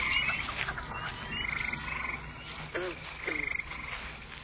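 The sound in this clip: Frogs croaking in a marsh: repeated rhythmic bursts of rasping croaks and trilling calls, rising and falling in loudness in short pulses, with no talk.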